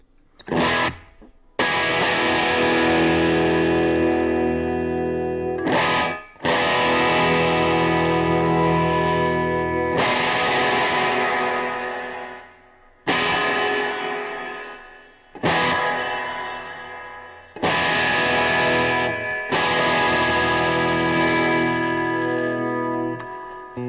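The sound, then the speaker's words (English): An electric guitar played through a Sonicake reverb pedal strikes several sustained chords. Each chord rings out with a long, washy tail before the next strum, and some notes are cut off abruptly. “Oh, and then the reverb. I didn't even show you guys the reverb.”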